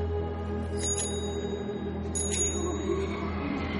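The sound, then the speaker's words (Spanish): A bicycle bell rung twice by a blindfolded child walking through a forest, two brief bright metallic rings over a steady low drone. “El niño camina por el bosque tocando otro timbre.”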